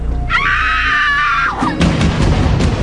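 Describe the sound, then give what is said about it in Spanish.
A loud, heart-rending scream rises sharply and holds for about a second, then gives way to a dense rumbling noise. “lanzó un grito desgarrador.”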